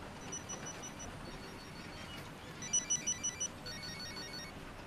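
A telephone rings with a quick burst of short, evenly spaced trills, fairly faint over a steady background noise, with no talking.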